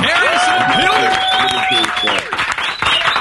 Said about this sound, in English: give a big round of applause.